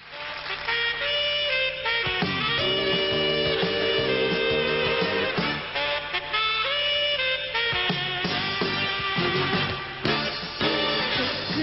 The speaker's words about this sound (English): the game has an animated version of her in the title page on stage playing her song. The song sounds like this.